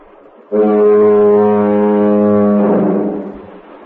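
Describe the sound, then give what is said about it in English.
A lighthouse foghorn sounds one deep, loud blast lasting a few seconds, with a rich steady low drone that roughens and fades at its end. “could you tell us what your fog horn sounds like then? Well, it has a blast every 20 seconds. The length of the blast is 2 seconds, and it sounds like this.”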